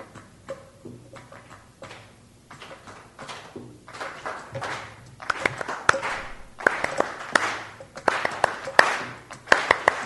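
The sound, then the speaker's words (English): Rhythmic hand clapping accompanies flamenco music. Sharp, crisp claps start sparse and soft, then grow louder and denser through the second half. “you're going to hear flamenco music with clapping”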